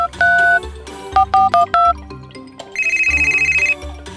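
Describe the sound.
Keypad tones as a mobile phone number is dialed: one longer dual-tone beep, then a quick run of short beeps, followed by a higher, steadily pulsing ringing tone.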